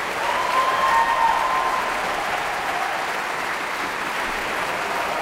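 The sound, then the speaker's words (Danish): A concert audience in a Berlin concert hall applauds an orchestra after a symphony as its instrument sections stand one by one, a steady, dense wash of clapping that holds an even level throughout. “Og bifald til de forskellige instrumentgrupper, der bliver rejst en for en.”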